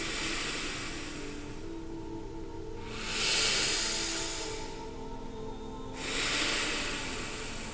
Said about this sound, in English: breathe all the way in and all the way out.